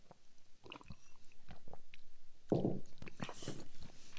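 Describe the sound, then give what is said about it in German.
Someone takes sips of non-alcoholic strawberry beer, making a series of short, wet slurping and mouth sounds with small swallows, fairly faint and without talk. “Ich nehme mal, einen, mal einen Schluck. Ich traue mich jetzt mal.”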